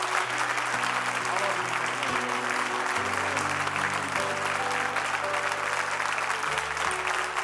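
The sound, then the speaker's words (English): A church audience claps steadily in honor of their pastors, dense continuous applause that holds an even loudness throughout, with sustained low tones running beneath it. “Come on, give Jesus a great big hand. And while you're there, just continue that hand clap of honor for your pastors, your senior pastors”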